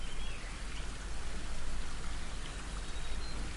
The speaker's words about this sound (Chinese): 流水的声音包围住你